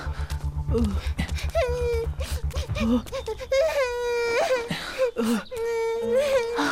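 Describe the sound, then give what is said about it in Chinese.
A young child cries and whimpers at home after her mother has fainted, making sobbing wails with a wavering pitch that come in repeated bursts. A low throbbing pulse runs under the first few seconds. “别哭了”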